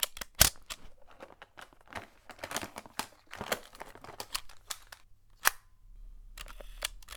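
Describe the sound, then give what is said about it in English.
Sharp mechanical clicks and clunks as a cassette tape is changed in a recorder. Many irregular snaps and taps come in quick succession with light rustling between them and no talking. “Okay, I'm going to change the tape. This final cassette recording will be the last I make here, never to be listened to again.”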